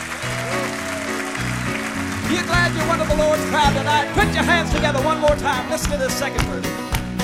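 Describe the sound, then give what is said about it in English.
Audience applause at a church gospel performance, a loud run of clapping blended with ongoing gospel music whose sustained notes and chords continue throughout. “Put your hands together one more time.”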